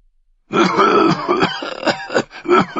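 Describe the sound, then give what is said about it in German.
A man's coughing fit as he collapses, harsh throaty bursts mixed with groaning, an ill man coughing up blood; several rough, loud hacks come in quick irregular succession, performed by a voice. “Er sackte in einem Hustenanfall zusammen.”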